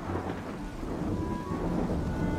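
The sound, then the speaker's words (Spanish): A thunderstorm brings rolling thunder and steady rain: a continuous low rumble under a dense hiss of falling rain, sustained without a break for the whole short stretch. “una tormenta gruñona estuvo tronando y descargando lluvia sin parar durante una hora seguida.”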